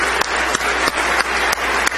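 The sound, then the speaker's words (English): An audience claps hands in praise during a church service. Six evenly spaced claps land about three per second over a loud, steady background. “Let's take our 10 stringed instruments and give our Lord Jesus a wonderful hand clap of praise.”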